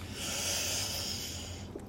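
A deep, slow breath as a relaxation exercise, heard as one faint, steady, breathy rush of air that lasts almost two seconds and then fades.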